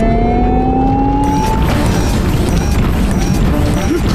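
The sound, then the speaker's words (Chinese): A car accelerates at full speed, its engine whine climbing steadily in pitch before giving way to a loud, dense roar that holds to the end. “现在全力加速往裂缝前进吧”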